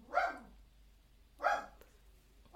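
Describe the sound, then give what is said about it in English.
A dog barks three times at a slow, even pace. The barks are faint and sharp, separated by quiet pauses. “Oh, there's the dog.”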